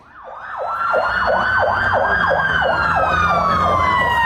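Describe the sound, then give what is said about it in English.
Emergency service sirens wail through the city of Belfast at night while mobs riot. One siren loudly yelps in many rapid up-and-down sweeps, another holds a steady tone that slowly falls, and a low engine rumble sits beneath. “The sound of emergency services in Northern Ireland's biggest city, Belfast, responding to another night of mobs on the rampage.”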